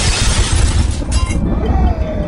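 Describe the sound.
A thunder crack sound effect during a tabletop role-playing game: a loud, dense burst of crackling noise with no clear pitch that holds strong for about two seconds.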